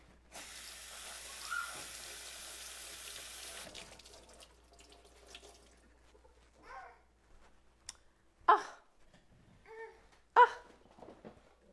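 Tap water runs to wash a child: a steady hiss for about three seconds, then stops. A few faint clicks and soft splashes follow.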